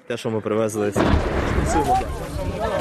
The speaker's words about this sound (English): A shell exploded just a couple of hundred meters away.